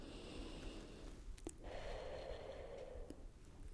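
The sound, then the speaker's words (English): A slow, deep breath in and out during a mock medical exam, heard as a faint, airy, continuous rush of air with no talking. “So, you can just relax and take a nice deep breath in and out for me, okay? Alright, so breathe in.”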